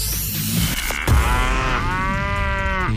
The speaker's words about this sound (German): Achtet einfach auf das Enjoy-Mu-Geräusch bei uns im Programm. Nochmal zur Erinnerung, so klingt's.